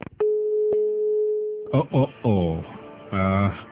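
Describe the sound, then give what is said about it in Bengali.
A steady electronic telephone tone sounds as a phone call is cut off, holding one even pitch for about a second and a half before a voice starts talking. “ঠিক এই মুহূর্তে এই ফোনটা কেটে গেল”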